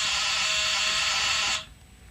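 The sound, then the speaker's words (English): A door buzzer is pressed at a porch entrance: one steady, harsh electric buzz holds for about a second and a half, then cuts off abruptly, leaving quiet background. “I pushed the buzzer, and nothing happened. So I pushed it again.”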